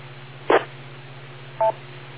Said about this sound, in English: when I pass it back to you, you gotta wait until you hear a beep before you start talking